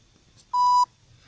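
A telephone line tone: one steady, mid-pitched beep lasting about a third of a second over a faint low hum.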